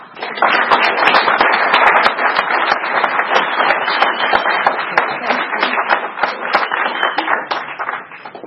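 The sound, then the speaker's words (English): Audience applause welcoming a speaker at a recovery meeting, loud and dense clapping from many hands that sustains evenly throughout with sharp individual claps standing out. “And let's give Shay a warm welcome.”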